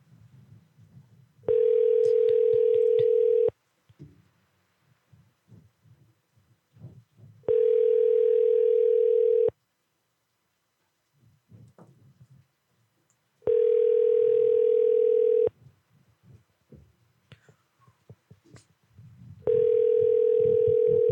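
Ringback tone of an outgoing telephone call that goes unanswered: four long, steady, mid-pitched tones of about two seconds each, evenly spaced with the last cut off, and faint low rustling and murmurs in the gaps.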